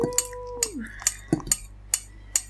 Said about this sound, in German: Ich rühre jetzt einfach mal kurz schon mal atmosphärisch am Mikro um, weil wenn man nicht umrührt, sieht man diesen Drink immer an, wie viel Butter er drin hat.